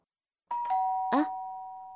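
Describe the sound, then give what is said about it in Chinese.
A hotel room doorbell chimes, struck as a few quick tones that then ring on steadily and fade slowly. The chime is fairly soft. “你那边门铃声是不是也刚刚响了？”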